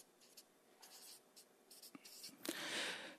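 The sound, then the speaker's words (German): Someone writes something down, producing soft, scratchy strokes in many quick, irregular bursts. The strokes are faint and heard alone, ending in a longer continuous scribble. “Schreibe ich mal auf.”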